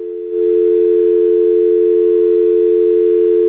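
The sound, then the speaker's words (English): Telephone dial tone after a call is disconnected: a steady, loud, low electronic hum that starts a moment in and holds unbroken to the end, alone with no voices. “Caller, I'm going to disconnect this call.”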